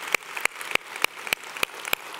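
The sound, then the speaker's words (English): A church audience claps in praise in rhythmic unison, eight sharp, evenly spaced hand claps at a brisk, steady beat. “Come on, let's give our God a hand clap of praise right now.”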